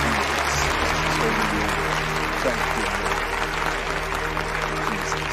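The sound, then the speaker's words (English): An audience rises to its feet and applauds, a thick, steady roar of many clapping hands that keeps an even loudness throughout without pause. “The crowd rises, applauding.”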